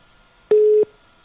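A phone tone heard while calling someone back on a mobile phone: a single short, steady, mid-pitched beep, clean and loud against near silence.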